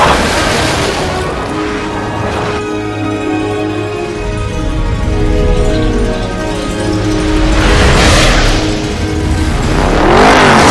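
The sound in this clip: Race cars from the film Cars speed around a track with a loud, continuous engine roar. Near the end, cars whoosh past in sweeping surges.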